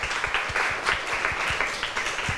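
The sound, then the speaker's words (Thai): Classroom audience applause for two students after their talk on King Rama V's seven teachings: steady, moderately quiet clapping with many quick overlapping claps and no speech. “ขอบคุณค่ะปรบมือให้ทั้ง2คนหน่อยค่ะ”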